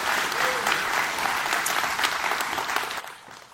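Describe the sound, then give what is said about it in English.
A church audience applauds, a dense, sustained wash of clapping that continues evenly and tapers off slightly at the end. “Give the Lord a hand.”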